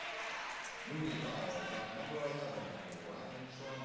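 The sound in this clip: A basketball is dribbled before a free throw at a boys' high school basketball quarterfinal, Mooney vs Trillium. The bounces sit low under steady crowd murmur and a commentator's voice.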